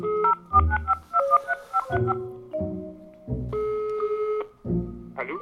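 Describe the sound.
Telephone number being dialed: a quick run of keypad tone beeps, then a few longer sustained tones, all clear and loud with no talking.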